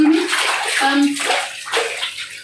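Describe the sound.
Water splashes and sloshes as a face mask is rinsed off, a steady run of busy, noisy sound lasting a couple of seconds.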